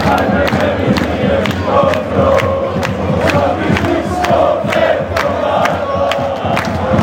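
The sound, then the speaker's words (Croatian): About ten thousand home-side football supporters sing in Maksimir stadium after a win, a dense, loud wall of chanting voices broken by sharp rhythmic beats throughout. “10.000 Dinamovih navijača zapjevalo je modrima.”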